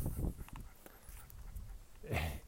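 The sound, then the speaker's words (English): A dog panting in quick, breathy, uneven pants, with some soft low thumps and rustles mixed in and a stronger burst of breath near the end. “So Bud is still a dog and he's panting.”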